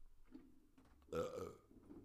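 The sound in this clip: A single loud burp bursts out near the middle, rough and throaty, lasting about half a second over faint background murmur.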